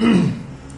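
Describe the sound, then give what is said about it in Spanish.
A single throat clearing: one short, rough, low-pitched rasp that starts strong and fades quickly. “Se aclara la garganta”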